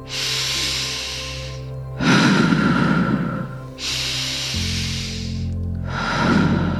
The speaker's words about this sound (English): Nice, deep, long breaths as you move.